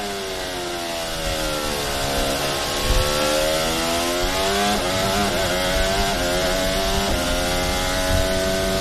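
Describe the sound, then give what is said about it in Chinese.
A race car engine revs hard and loud through gear changes, its pitch dipping on a downshift from sixth to fifth, then climbing again through upshifts while it passes a slower car. “6档，这边退到5档，然后继续升档，这边呢过掉慢车。”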